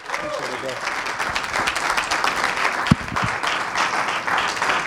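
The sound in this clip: Applause from a church audience welcoming a guest speaker to the service, a dense, steady patter of many hands clapping throughout, with a couple of louder thumps near the middle.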